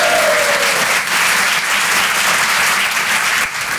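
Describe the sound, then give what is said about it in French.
Loud, steady applause from a French comedy show audience clapping for the presenter, a thick continuous wash of clapping with no pause from start to end. “Un maximum de bruit pour le présentateur, Guillaume”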